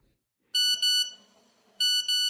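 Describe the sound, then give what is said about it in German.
Electronic beeps from a mobile phone as a text message is sent: two pairs of short, bright, tonal beeps separated by a brief pause, sounding alone. “Hastig verfasste Jason eine SMS und schickte sie an Bob.”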